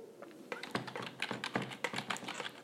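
Typing on a computer keyboard: quiet, irregular bursts of light key taps that come in uneven clusters with brief pauses.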